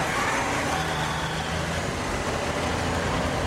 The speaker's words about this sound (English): A large black truck turns a corner.